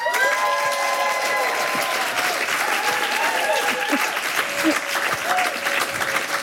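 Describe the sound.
An audience applauds a performer at an evening event, with dense, steady clapping that stays loud throughout.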